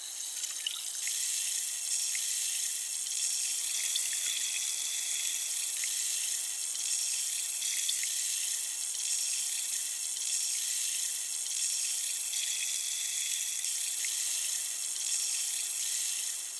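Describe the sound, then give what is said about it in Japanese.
Fizzing, popping cleaning water: a bright, constant hiss of tiny bubbles that crackle steadily throughout at an even level, with no talk. “洗浄効果も良いと思うのですが、何よりこの音がとても心地いいですよね。シュワシュワと弾ける音、”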